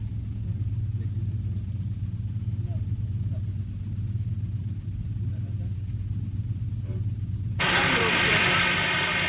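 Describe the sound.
Congested road traffic on the way to Arafah at night: a continuous low engine rumble from slow-moving vehicles, joined by a louder, broader rush of noise for the last couple of seconds.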